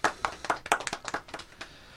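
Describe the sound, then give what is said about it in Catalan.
A small group applauding a quiz contestant: a short round of crisp, quick, slightly uneven hand claps that thin out and stop after about a second and a half. “Un aplaudiment.”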